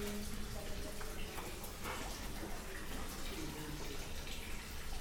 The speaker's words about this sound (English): And this is very similar to that other fountain. It's a little boat, a little toy boat here, a little toy cruise ship.